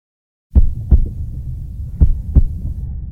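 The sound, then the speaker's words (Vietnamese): Heartbeat of a bus driver after being insulted and threatened, heard as two clear pairs of deep, muffled lub-dub thumps over a low steady hum, with a pause between the pairs. “Đây là âm thanh của nhịp tim từ một người tài xế xe bus.”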